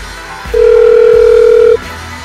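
A telephone tone sounds as a call is placed to a local news desk: one steady, loud, unbroken tone of about a second, over a faint background hum, with no talk.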